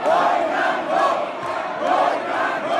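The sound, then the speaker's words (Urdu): PML-N members of the Punjab assembly chanting slogans after the result of the chief minister vote is announced: a loud crowd of voices in rhythmic swells that rise and fall about once a second. “نتائج کا اعلان ہوتے ہی نون league کے ارکان نے نعرے بازی شروع کر دی۔”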